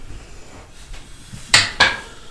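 Dice are rolled on a tabletop during a roleplaying game session, making two sharp clattering knocks in quick succession over a low background hiss.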